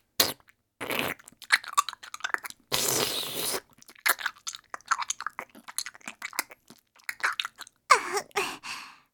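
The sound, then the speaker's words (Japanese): Wet chewing and crunching mouth sounds from someone eating, many irregular smacking bursts in a steady stream, fairly loud and with no talk. “こうしてよく噛んでから舌の裏から歯の間までつぶつぶにダマになったミルクをくちゅらせてから”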